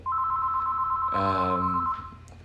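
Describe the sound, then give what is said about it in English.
A house phone rings with a steady electronic tone, held for under two seconds with a brighter, buzzier burst in its second half before it cuts off. “Oh, we got the house phone ringing.”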